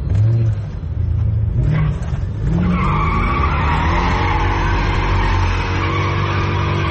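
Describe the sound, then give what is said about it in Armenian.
Tires screech from a car speeding through city streets at night: a long, loud, continuous squeal over a roaring engine, its pitch wavering as it holds throughout. “Գիշերային Երևանը հաճախ ցնցվում է նաև մեծ արագությամբ սլացող մեքենաների ձայնից կամ, ինչպես բնակիչներն են նկարագրում, ճռռիկներից։”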